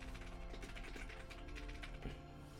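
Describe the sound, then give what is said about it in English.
Rapid keyboard typing, a steady run of many soft, overlapping keystroke clicks with no pause and no talking. “I'm gonna go ahead and type that.”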